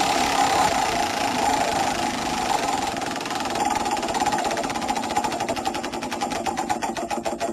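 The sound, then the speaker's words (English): A spinning prize wheel ticks rapidly against its pointer in a dense, steady stream of clicks over a constant hum, the individual ticks standing out more sharply toward the end. “it's time to spin the wheel and find out what song from the 2003 Hottest 100 we shall be hotting back to this evening.”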